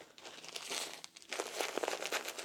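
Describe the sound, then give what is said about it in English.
A disposable diaper crinkles softly as it is taped up snugly on a wearer, a quiet run of irregular plastic rustles that grows busier in the second half, with no talk. “Let's get this diaper all taped up nice and snug.”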